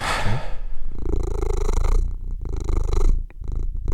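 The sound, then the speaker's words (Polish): A cat making strange sounds: a loud, continuous, low rumbling purr-like drone with a steady throaty texture, briefly dipping near the end before resuming. “To był mój kot, który tu ze mną dzisiaj nagrywa podcast gościnnie.”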